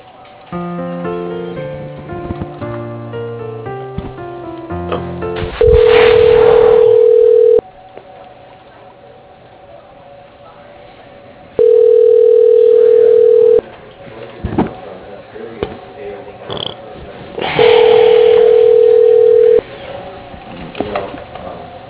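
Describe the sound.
Telephone ringback tone sounding while a call is transferred: three long, steady, mid-pitched rings of about two seconds each, separated by quieter gaps. Soft tonal music plays before the first ring.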